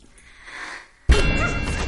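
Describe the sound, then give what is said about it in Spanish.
A sharp clang as a lid flies off after being kicked in a thriller film scene. A sudden loud hit breaks through a low, quieter rumble and is followed by a steady, loud clattering noise. “La patea. La tapa salta.”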